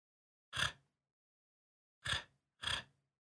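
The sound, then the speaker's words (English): Three short, raspy bursts of noise made in the back of a person's throat, one on its own and then a pair in quick succession, fairly faint against silence. “I will make a noise kind of in the back of my throat, and it sounds like this.”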